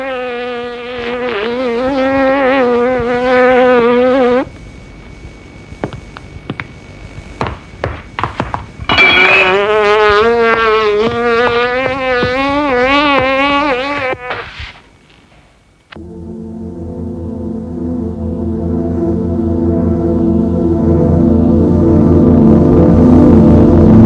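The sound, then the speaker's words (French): Buzzing of a fly being chased, heard as a loud harmonic drone that wavers in pitch, broken by brief gaps, then followed by a lower, steady sustained hum. “Il ne chasse qu'une mouche.”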